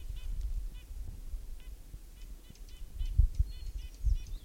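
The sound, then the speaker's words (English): A hermit warbler sings an atypical song, faint and high-pitched. Several short phrases of quick, buzzy repeated notes come over a low, rumbling background. “Hermit Warbler, Atypical Song.”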